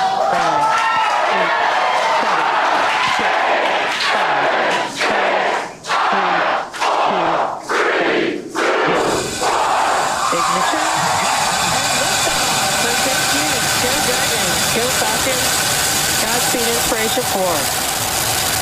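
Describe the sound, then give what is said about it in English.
SpaceX Inspiration4 rocket launch at Kennedy Space Center in Florida: a voice counts down in short bursts, then a sudden, loud, broad rocket roar takes over and holds steady to the end. “Let's roll that tape and look here the final moments of countdown from Kennedy Space Center in Florida just an hour ago.”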